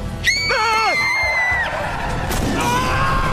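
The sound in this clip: A young girl screams suddenly inside a car, a shrill, wavering cry held for over a second before trailing off, over a steady background hum.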